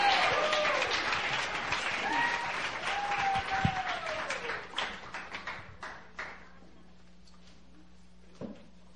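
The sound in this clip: A church audience applauds to welcome a pastor to speak. Loud, dense clapping with voices over it at first, then after about five seconds it thins to scattered claps and dies away, with one last clap near the end.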